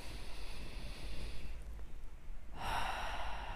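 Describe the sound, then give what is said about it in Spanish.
A deep inhale through the nose makes a soft, airy breath that swells and brightens toward the end over a low, steady hum. “Y si no puedes hacerlo porque hay gente alrededor, inhala profundamente por nariz.”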